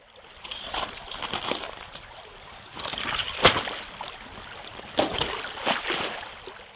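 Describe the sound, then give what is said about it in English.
Liquid water flows in a creek with a soft, continuous rushing, then pieces of ice on the creek's edge break off and splash into the current, giving a few sharper, louder bursts over the quiet flow. “Those were sounds of liquid water flowing in a creek, followed by pieces of ice on the creek's edge breaking off and splashing into the flowing water.”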